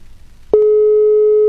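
A telephone tone plays while a call is being connected: after a short faint stretch, one steady mid-pitched tone starts abruptly and holds unbroken at full strength to the end.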